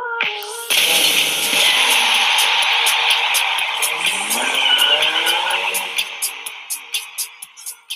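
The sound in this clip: An Octane car from the video game Rocket League drives past in a game trailer with a roaring engine and screeching tires, followed by a run of sharp rhythmic hits that fade out.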